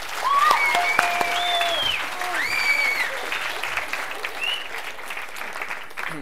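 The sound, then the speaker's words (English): An audience applauding to welcome an author at a book talk: sustained, dense clapping throughout, loudest at the start, with voices calling out over it. “So can you put your hands together, please, and welcome Melvin Burgess.”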